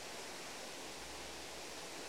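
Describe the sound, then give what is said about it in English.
Two waterfalls pour water from a dam down into a reservoir, giving a soft, steady rushing hiss that stays even and unbroken, with no other sounds standing out. “We're now standing above two waterfalls, which are careering water from Agill Dam to our left, down into Roundhill Reservoir to our right.”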